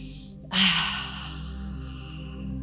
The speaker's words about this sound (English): Inhale through the nose and exhale audibly through the mouth.